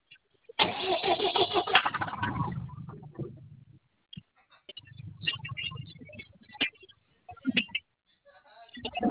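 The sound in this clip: A pickup truck engine is cranked with the ignition switch in a couple of separate bursts of grinding, rumbling engine noise, with short sharp sounds and quiet gaps between them.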